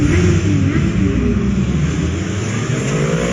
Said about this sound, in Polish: Kiedyś to był ryk dzikiego zwierzęcia, dzisiaj jest ryk z motoru,